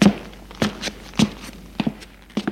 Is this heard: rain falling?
no

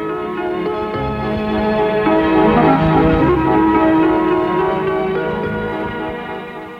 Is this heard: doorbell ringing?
yes

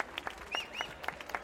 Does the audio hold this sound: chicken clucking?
no

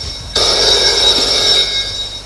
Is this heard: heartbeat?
no

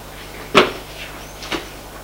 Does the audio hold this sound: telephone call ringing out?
no

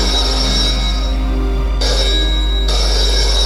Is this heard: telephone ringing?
yes

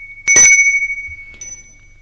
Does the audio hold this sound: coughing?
no

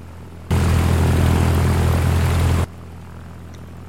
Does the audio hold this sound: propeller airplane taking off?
yes

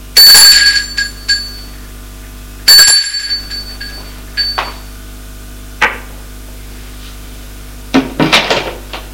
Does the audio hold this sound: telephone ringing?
no

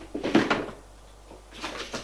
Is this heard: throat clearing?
no

